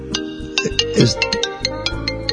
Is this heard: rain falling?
no